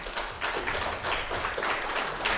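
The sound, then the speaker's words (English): An audience clapping together, dense and even applause that holds at a steady level throughout, with a few stronger bursts of claps standing out within the wash. “Hey, we normally don't clap, so there you go.”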